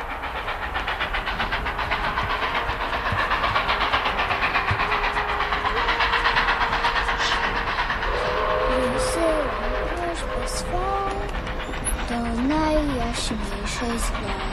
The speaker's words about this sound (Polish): To tym razem do naszego bożonarodzeniowego pociągu.